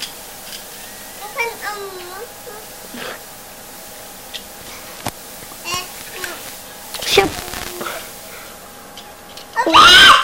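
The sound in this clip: A young child cries and whimpers in uneven bursts, with wavering, whiny wails rising and falling between quieter pauses and a louder sobbing outburst at the end.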